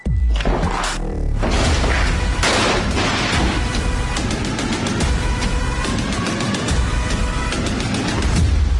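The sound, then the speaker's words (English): A drum line mimics automatic weapons fire in a political campaign ad: dense, loud booming hits that run on without pause and break into rapid rattling bursts, like a fusillade. “You'll note the drum line there is meant to simulate the sound of automatic weapons fire as a gang of camoed up thugs busts in the door”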